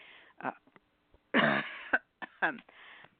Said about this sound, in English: I came back with a cough, as you can tell.